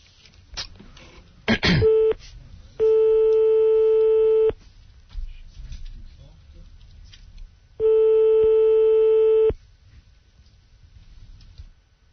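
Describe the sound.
A telephone call being placed and ringing: after a brief burst of sound, two long, steady ringing tones sound several seconds apart, each lasting under two seconds, with only faint background noise between them.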